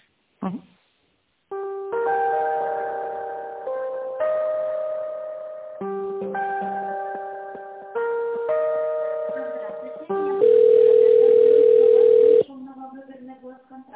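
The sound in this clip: Electronic telephone tones play while a call is transferred: a series of sustained synthetic notes that step between different pitches, ending on one long, louder steady tone and then softer tones.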